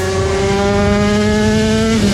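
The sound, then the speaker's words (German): Vintage classic motorcycles race at the Schleswig-Holstein classic grand prix, a loud, steady engine drone rich in harmonics that holds one pitch throughout, dipping slightly near the end. “Das ist der Sound vom Scheggerotter Classic Grand Prix in Schleswig-Holstein am 1. Juli-Wochenende. Klassische, alte, richtig geile Motorräder, soweit das Ohr hören kann.”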